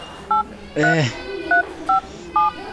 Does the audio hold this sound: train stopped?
no